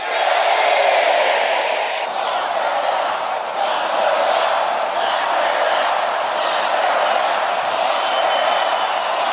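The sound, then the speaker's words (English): Crowd noise from an audience at a political rally chanting 'lock her up' and 'guilty', a dense, sustained roar of many voices that stays loud and even throughout with no pause. “The audience was chanting, lock her up, lock her up, and guilty.”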